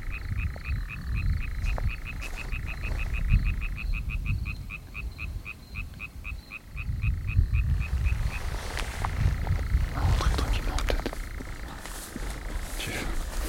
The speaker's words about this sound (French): Ça aussi, c'est l'été, je trouve. Une petite ranette qui chante.